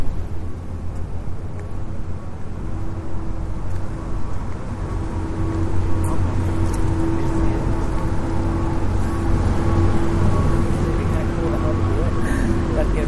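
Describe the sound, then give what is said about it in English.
Motor running, probably a boat on the Illinois and Michigan canal at LaSalle, a steady low droning hum under gusty wind noise and people talking. “Oh, there is a motor. You can hear the motor going.”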